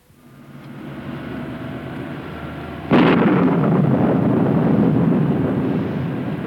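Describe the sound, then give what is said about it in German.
Thunder rumbles low and steadily, then a sudden loud crack bursts in and gives way to a heavy, sustained rolling rumble that eases slightly toward the end. “Nanu! Was ist denn das? Es donnert! Ja, es hat gedonnert.”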